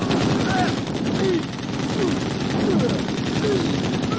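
Gunfire in a dramatized wartime escape across a heavily guarded border strip: a dense, continuous roar of shots and bursts without pause, loud and sustained throughout.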